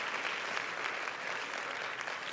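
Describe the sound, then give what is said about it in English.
Church audience clapping hands during a service, making dense, even applause that holds a steady, moderate level for the whole stretch with no single voice standing out. “clap your hands once again”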